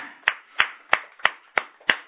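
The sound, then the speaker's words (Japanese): Hand clapping in celebration of a 20th birthday: six sharp, evenly spaced claps in a steady unison rhythm, each crisp and separated by a short gap, with no talk. “盛大な拍手でお祝いをしてあげてください”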